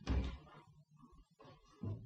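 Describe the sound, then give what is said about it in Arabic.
A door is shut at a tomb at night in an Egyptian radio drama of the Thousand and One Nights: a loud dull thump at the start, followed by softer low knocks and creaks. “أنا هدخل المدفن ده أستخبى فيه، أما رد الباب.”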